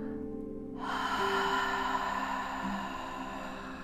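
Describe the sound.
Long exhale through a constricted throat during a breathing exercise, with slight belly tension: a steady, breathy hiss that starts abruptly after a quiet moment and holds evenly for several seconds over a faint low hum.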